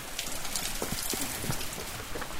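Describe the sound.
Pouring rain on an early Saturday morning at a Buddhist pagoda south of Paris, a dense, steady hiss of drops on surfaces with scattered heavier taps throughout; no voices.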